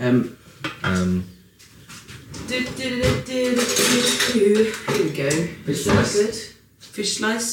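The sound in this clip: A fish slice and spoon serve food from a pan, making repeated metallic scrapes and clinks of utensils against cookware, mixed with ongoing conversation.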